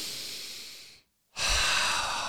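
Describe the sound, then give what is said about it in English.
Slow, deep breathing through the nose: a long airy breath gradually fades, a short silent pause follows, then a second strong, rushing breath carries on to the end. “it's the taking the breath, just”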